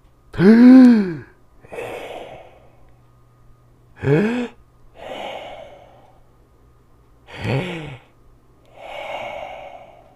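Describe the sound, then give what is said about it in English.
Three big, deep breaths, evenly spaced: each a loud, voiced inhale followed by a long, softer exhale, with quiet pauses between them. “Let's take three big breaths and think of three good things.”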